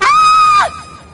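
A woman lets out a single loud, high scream that holds steady, then drops sharply in pitch and trails off into quiet.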